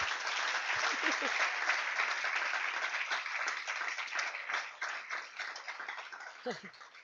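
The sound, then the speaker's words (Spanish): Congregation applause during a church sermon: an even, dense wash of clapping runs throughout, with brief voices rising over it near the start and again near the end. “denle un aplauso para que se despierte.”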